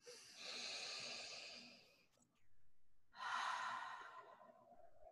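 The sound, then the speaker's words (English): A deep breath during a guided tapping exercise: a long, airy inhale, a brief pause, then an even longer, audible sighing exhale, soft and breathy. “Deep breath.”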